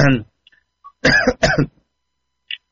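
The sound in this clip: Two harsh, throaty coughs come in quick succession, preceded by a brief snatch of voice and followed by near silence with a few faint clicks.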